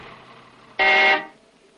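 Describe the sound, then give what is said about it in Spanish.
A single short car horn honk as a car arrives along a road, a steady bright tone lasting under half a second that stands out above a low background hum. “Un coche llega pitando por el camino.”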